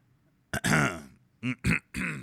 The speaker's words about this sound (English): Clear my throat.